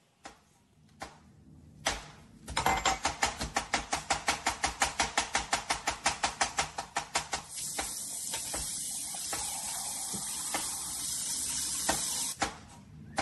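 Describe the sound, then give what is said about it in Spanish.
Dishes being washed at home: a fast, regular run of many scraping strokes is followed by a steady, even hiss like running water, with a few sharp clicks at the start and end. “les voy a mostrar un video de cómo mi esposa me ha entrenado a lavar los trastes en la casa”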